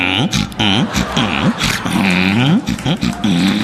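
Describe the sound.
A person imitating a dog's barking with many short voiced yelps, each arching up and down in pitch, loud and repeated in quick succession.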